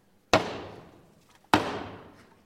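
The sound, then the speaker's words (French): Solemn knocks signal the start of a theatre play, a farce: two loud, sharp thuds about a second apart, each trailing off in a long fading ring. “Trois coups solennels font régner le silence.”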